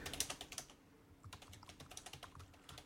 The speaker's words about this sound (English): Here, as they both type.